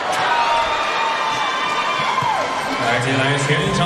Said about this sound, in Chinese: 全场的加油声，准备，中国队加油，中国队，中国队。